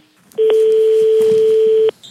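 A telephone keypad tone as a number is dialled: one clean, steady beep held for about a second and a half, with no talk over it.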